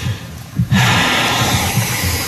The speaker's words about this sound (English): I can hear a breath here and there. You're a faint breath.